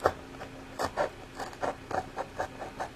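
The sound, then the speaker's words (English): An X-Acto knife cuts out a square, heard as a series of short, quiet rasping scrapes in an uneven rhythm with no talking. “All right, so I'm cutting out a square of this with my X-Acto knife.”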